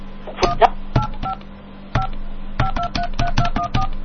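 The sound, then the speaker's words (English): Touch-tone dialing of an AT&T long-distance call: many short, clipped DTMF beeps in quick irregular bursts, each a crisp dual-pitched tone, over a steady low hum. “Please dial the area code and number you are calling.”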